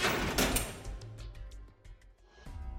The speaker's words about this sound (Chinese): 门被工作人员打开，周勇背对着他们，两人被推进了单间后，铁门被重重的关上。